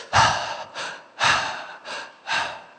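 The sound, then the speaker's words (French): Deep breathing: five loud, rhythmic breaths, each a rushing, airy gasp with short pauses between, and no speech. “Cette dernière bouffée d'air que vous avez insufflée. Respirez plus fort.”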